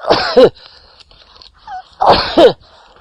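Two sneezes, each a quick loud burst with a two-part breathy explosion, separated by a short quiet pause.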